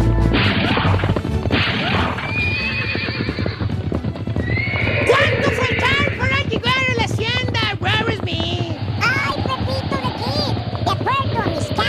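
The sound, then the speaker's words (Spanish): Horses gallop hard, with rapid clip-clop hoofbeats that run throughout. Repeated whinnies and neighs and a few crashing thumps make the whole stretch loud and busy. “mi gran tío Pepito de Kid y su gran amigo el Rorro Smith cabalgando allá por el viejo este a todo galope”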